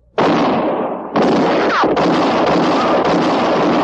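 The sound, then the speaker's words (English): Gunshots in an audio drama: two loud, sharp blasts, the second followed by a long, sustained roar. “You've killed me! I'm shot! It was Katie Fulton's shot that missed Mattie Silks and hit Court Thompson.”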